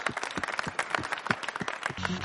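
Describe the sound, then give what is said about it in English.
A round of applause from a group, many quick overlapping claps forming a faint, dense patter that runs for about two seconds. “Big round of applause, guys.”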